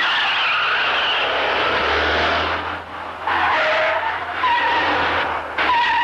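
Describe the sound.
A car skids into a bend, its tires squealing loudly and continuously while the engine roars beneath, with the screech wavering in strength through the turn.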